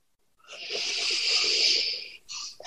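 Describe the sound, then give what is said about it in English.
A slow exhale at the end of a breathing practice: one long, soft, airy hiss of breath lasting over a second, followed by a couple of brief breathy sounds. “seal your practice with a huge wave of gratitude. Just locking in this connection and this feeling, this open communication now. And exhale.”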